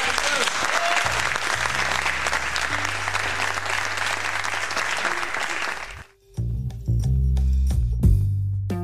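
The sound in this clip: Audience applause welcoming a guest onto a show: dense, loud, continuous clapping holds steady for about six seconds, then breaks off abruptly as other sound takes over.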